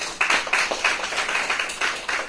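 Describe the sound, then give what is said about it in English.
Applause from an audience honouring someone with about 30 years in school ministry, a moderate patter of overlapping claps with soft repeated bursts, fairly even and without talk. “Round of applause for you.”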